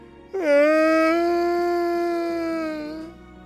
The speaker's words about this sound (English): It's almost like I can still hear her tiny little bark. See? There it is again.